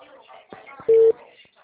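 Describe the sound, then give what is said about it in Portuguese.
A phone call being dialed: one short, steady electronic beep, clear and loud, with faint muffled sounds before and after it. “Eu tô ligando pra ele.”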